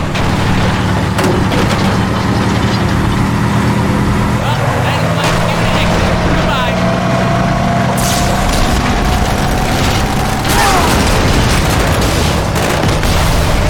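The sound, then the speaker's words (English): A Warthog vehicle's engine drones in a video game and slowly climbs in pitch. Dense, loud game noise and scattered booms fill the whole stretch. “Alright, well, I guess I'll just drive the Warthog.”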